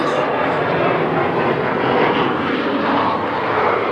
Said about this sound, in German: Warten wir erstmal den Flieger ab.